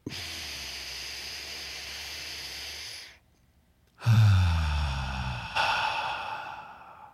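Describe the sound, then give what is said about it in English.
A deep belly breath, drawn in through the nose as a long, steady, hissing inhale, then a short pause before a breathy exhale out through the mouth that gradually fades. “Let's do it a second time. And after this second deep belly breath, in through the nose, out through the mouth”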